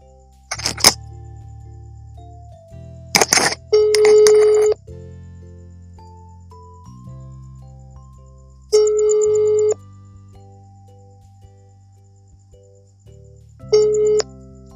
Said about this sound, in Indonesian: Oke, langsung aja gua telepon orangnya.